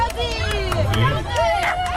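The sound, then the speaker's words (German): Spectators at a dachshund race cheer and shout as the dogs run. Excited voices and crowd babble rise and fall without a break. “So, meine Damen und Herren, klingt's beim Dackelrennen, wenn Dackel rennen.”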